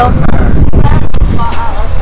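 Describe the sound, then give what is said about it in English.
Wind buffets the microphone on a boat heading under a big blue bridge, a steady, loud, low rumble that fills the whole clip with only small swells. “Well, we got a little wind here.”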